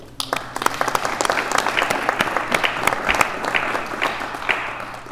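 Applause from a meeting audience welcoming a two-person panel: dense, steady clapping with many sharp individual claps that holds loud for the whole stretch.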